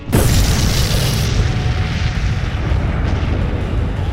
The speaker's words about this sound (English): And the bridge explodes.